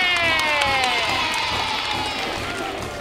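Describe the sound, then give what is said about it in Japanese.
Elementary school children cheer a loud, sustained unison "yay" at a school event, a bright burst of high voices that slowly fades over a few seconds. “ものすごいみんなのイエーイにちょっと今びっくりしちゃったね。”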